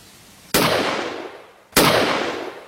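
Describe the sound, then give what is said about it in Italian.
Two sharp pistol gunshots fired at the edge of a wood, each a loud sudden crack that fades into a long decaying tail, spaced a little over a second apart. “Ma poi, con fare veloce, estrasse la sua pistola”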